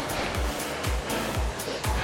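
A rowing machine is worked at a steady pace, giving a continuous whooshing rumble that surges about every half second, with four strong pulses in a regular rhythm.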